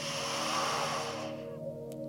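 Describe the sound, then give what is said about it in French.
A slow, audible breath drawn in during a guided breathing exercise for young children, a soft airy hiss lasting about a second over a steady sustained musical drone, then fading away. “Inspire.”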